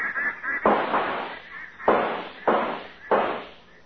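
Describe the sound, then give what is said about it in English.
Gunshots fired at ducks over a lake: several sharp, loud blasts in an irregular sequence, each decaying quickly, with fainter pops at the start. “Easy now. Don't shoot too fast, fellas. Look at them come.”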